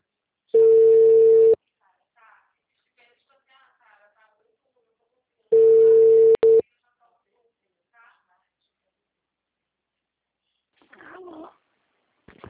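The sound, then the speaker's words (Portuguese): Ringback tone on an outgoing phone call to a client: two steady, one-second mid-pitched tones, spaced several seconds apart, with faint scattered sounds in the gaps. “Eu só tô ligando pro meu cliente aqui e vou entrar no Amapá.”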